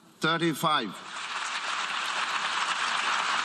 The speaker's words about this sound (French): Un vote historique. Salué par une longue ovation.